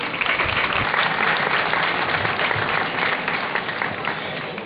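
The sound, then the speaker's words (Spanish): An audience applauds a speaker introduced at a town tomato festival, a dense, steady round of many hands clapping that holds its level before easing slightly toward the end. “Un aplauso para Ana.”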